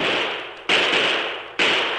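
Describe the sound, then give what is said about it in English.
Gunshots fired from a bluff: two sharp, loud cracks, each trailing off in a long decaying rumble, following the fading tail of an earlier shot. “The shots!”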